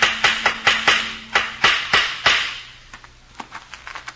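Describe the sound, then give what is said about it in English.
A hammer drives nails while a sign goes up outside a house: about nine sharp, evenly paced strikes, then a few fainter, lighter taps. “was nailing up a sign outside our house.”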